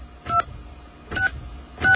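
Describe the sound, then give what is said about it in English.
Telephone keypad dialing tones sound as a toll-free number is dialed. Three short, bright dual-pitch beeps come at an even pace, each clearly separated by a gap of low line hiss. “And just simply dial 1-800-COMP-USA.”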